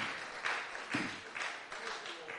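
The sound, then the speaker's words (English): Faint rhythmic hand clapping from a church audience during worship, beats falling about every half second, with a voice briefly heard among them. “Clap your hands unto the Lord in Jesus' name.”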